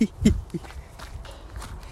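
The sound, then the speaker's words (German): Running footsteps land in a steady rhythm of soft thuds during a jog, repeating many times at an even pace. “ich bin beim Laufen”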